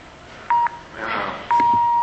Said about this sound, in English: Yeah. It's your phone.